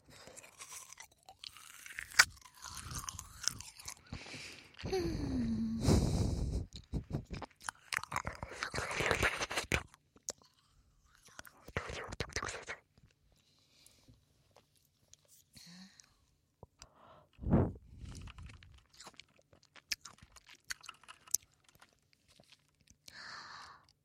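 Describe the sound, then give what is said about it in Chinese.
Someone bites and chews frozen grape juice jelly up close, making quiet, crunchy chewing in irregular bursts with pauses and a couple of louder crunches. “完全就是葡萄果汁冻起来的味道，我好喜欢这种”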